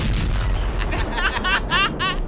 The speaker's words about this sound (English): I just needed a reason to use my Nevada bomb.